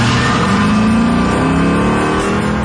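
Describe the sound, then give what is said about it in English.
A Chevy Camaro accelerates hard from 0 to 60 in 4 seconds flat, giving a loud, continuous engine roar whose tone climbs steadily as it speeds up. “people are experiencing new things in new Chevy vehicles, like going from 0 to 60 in 4 seconds flat in a Camaro.”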